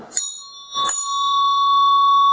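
Small hand bell struck twice, each strike leaving a bright, high, sustained ring that hangs on and slowly thins out.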